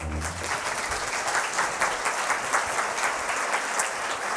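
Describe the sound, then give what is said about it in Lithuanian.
Audience applause greets a film director arriving for an interview; dense, steady clapping from many hands holds at an even, fairly loud level throughout, with no voices. “Ponės ir ponai, pasitikime plojimais filmo Sengirė, režisierius Mindaugas Urvila.”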